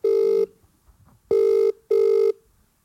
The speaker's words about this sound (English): Should I give her a call now? We'll give her a call now.